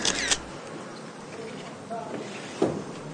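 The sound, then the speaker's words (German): A camera shutter takes a photo indoors where shoes have been removed, making a few sharp, brief clicks spread over a few seconds above a faint background murmur. “Ja, so ein Foto davon machen.”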